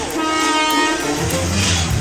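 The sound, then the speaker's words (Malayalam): A train starting to move out of a station platform, its heavy rolling rumble running throughout with a sustained, tonal horn sounding over it. “ഗാഡി ചലന ശുരു കർ ദിയാ ഹേ, ജൽദി Karoon. Train move ആയല്ലോ.”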